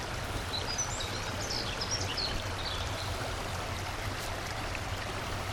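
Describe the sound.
Stream water flowing under a bridge through a small canyon, a steady, soft rushing wash throughout, with a few faint bird chirps above it.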